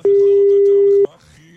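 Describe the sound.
A telephone tone plays while a number is dialed live: one loud, pure, mid-pitched beep holds for about a second, then cuts off abruptly, leaving faint background sound.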